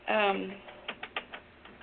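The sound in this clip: Keys clack on a computer keyboard as someone types a word into an online sign-in. A brief voice comes first, then a few sharp, separate taps in an uneven rhythm.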